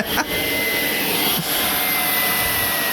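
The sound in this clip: A turbine-powered chainsaw idling with a steady, high, jet-like whine and airy hiss that runs unbroken for three seconds apart from two brief dips.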